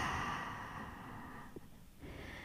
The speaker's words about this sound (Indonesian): Exhale. Inhale. Exhale.